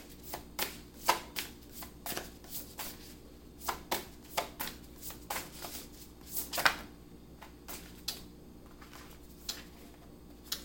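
Tarot cards are shuffled until some jump out of the deck: many sharp riffles and slaps at an irregular pace, clear and isolated over a quiet background.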